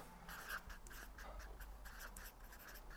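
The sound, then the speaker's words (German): Handwriting produces faint, continuous scratchy pen strokes with small rhythmic variations as words are written out. “Und das hier, nochmal, ich schreibe das ruhig auch nochmal dahin”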